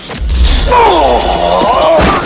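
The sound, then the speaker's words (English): A kick lands on a thug's face during an action fight, with a heavy low thud near the start, a drawn-out tonal sound afterward and another dull impact near the end. “Chance shoots, then kicks a thug. He kicks Lopaki in the face.”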